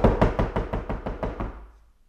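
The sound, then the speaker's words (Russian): Firm knocking on a door: many rapid, evenly spaced heavy knocks in a steady rhythm, loud at first and gradually fading. “Гость остановился перед дверью и крепко постучал.”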